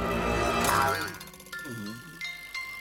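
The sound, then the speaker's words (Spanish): Light, tinkling music-box-like notes from a small ballerina figure spinning inside an opened small chest, with a springy wobbling tone followed by a few bright, ringing dings; soft and brief. “Una pequeña bailarina móvil gira en el interior del pequeño cofre.”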